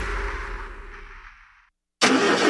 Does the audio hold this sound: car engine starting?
yes